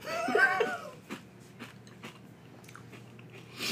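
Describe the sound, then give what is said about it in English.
Cornflakes cereal with milk being eaten: a brief voice at the start, then a few soft, scattered crunching bites, faint and widely spaced. “See, once you add the milk, it almost tastes like Frosted Flakes, but there's not enough sugar.”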